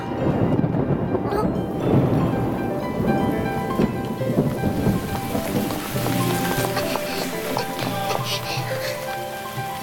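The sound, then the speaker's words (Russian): Heavy rain pours steadily with rolling thunder, a loud continuous wash of falling water over a deep low rumble, with no voices. “Как и не вовремя дождь пошел.”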